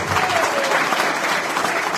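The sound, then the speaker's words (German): Audience applause at an event where thanks are being given: thick, continuous clapping from a crowd, loud and even throughout the two seconds with no break. “Applaus.”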